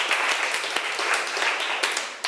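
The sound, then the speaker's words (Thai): Students in a classroom applaud a classmate: a dense, steady patter of clapping fills the whole brief moment, with no talk over it. “ถูกต้องค่ะเก่งมากปรบมือให้เพื่อนหน่อย”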